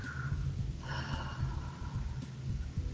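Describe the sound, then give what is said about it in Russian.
A deep breath drawn in and then fully released in a long, airy exhale, soft and unhurried over a low, steady hum. “Еще раз глубокий вдох и с выдохом до конца отпустите.”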